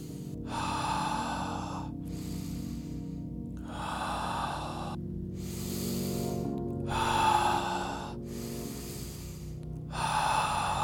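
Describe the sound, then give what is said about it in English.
Deep breaths drawn in and pushed out in a slow, even rhythm, each airy inhale or exhale lasting about a second with short quiet gaps between, several in a row and no talking. “Deep inhale. Deep exhale.”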